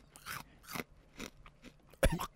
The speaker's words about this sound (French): Fait que là, j'y vais. Tu croques. Faut que je croque? Ben ouais.